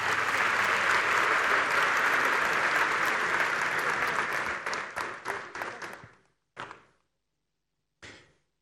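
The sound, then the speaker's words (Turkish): Audience applause at an awards ceremony: thick, sustained clapping that thins into a few scattered, separate claps and then stops, with a couple of last isolated claps after a pause. “Büyük bir alkış efendim.”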